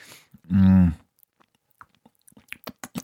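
Chewing and mouth sounds from eating pesto during a taste test: a long hummed vocal sound, then soft, irregular wet clicks and smacks toward the end.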